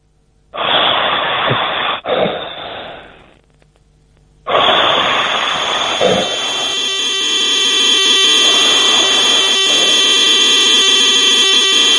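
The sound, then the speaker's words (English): A ZX81 computer game loading, starting with a harsh burst of hissing noise that breaks off briefly, then a continuous shrill buzzing screech with steady whining tones and faint regular pulses running through it. “It's a loading sound for a ZX81.”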